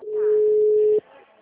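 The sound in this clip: Telephone ringing tone while a call is being placed: one steady, mid-pitched tone lasting about a second, with a voice faintly underneath, followed by quiet.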